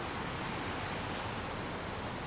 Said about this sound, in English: The river itself here is only about, at this point I would say maybe, I don't know, 4 or 5 meters wide.